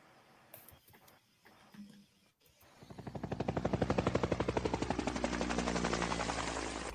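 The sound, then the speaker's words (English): An enemy machine gun fires beyond a hedgerow. A few scattered faint noises are followed by a sustained, fast, even rattle of rapid fire that holds loud for several seconds. “There is an enemy machine gun on the other side of the hedgerow, perhaps 20 yards away, and there are snipers on both flanks. The machine gun has killed one man and wounded six so far.”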